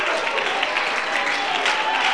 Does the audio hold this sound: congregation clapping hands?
yes